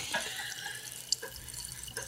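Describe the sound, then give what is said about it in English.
Sparkling water poured into a glass gives a soft, continuous fizzing hiss with bubbly crackle and a few small splashes, low in level and heard alone. “That was the sound of Neil Young pouring sparkling water into a glass.”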